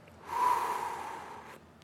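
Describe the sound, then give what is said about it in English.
A single deep breath in and let out again during a calming embodied practice, a soft airy rush that swells quickly, holds steady and fades away, heard alone without talk. “Just take a deep breath in and let it go.”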